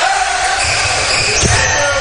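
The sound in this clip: A basketball bounces after a missed shot in a game between Ansonia and Fort Recovery, one dull thud under steady crowd noise and a commentator's voice.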